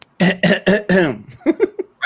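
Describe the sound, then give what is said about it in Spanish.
A person's voice imitates a cough, acted as the cough of someone recovering back to normal: four rapid, forceful voiced hacks, then a few softer, shorter coughs after a brief pause. “si puede hacer tu tos. Y básico, se puede hacer como una tos de que estás volviendo para la normalidad.”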